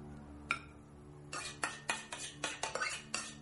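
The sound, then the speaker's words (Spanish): Cutlery clinking and scraping against a cooking pot as the last rice is scraped out: one faint knock, then a brisk run of many sharp metallic clanks and scrapes, quiet and alone. “Uno tiene mucha más comida que el otro y rebaña el puchero.”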